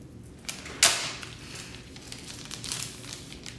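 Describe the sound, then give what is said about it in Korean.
The plastic wrapping on a music album CD is torn open with one sharp snap, followed by soft, scattered crinkling rustles. “아예 포장지도 이렇게 돼 있어요. 한번 뜯어볼게요.”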